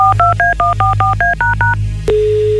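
A telephone being dialed with touch-tone keys: a rapid series of short, clear beeps at varying pitch pairs, followed by a click and a steady, sustained single tone.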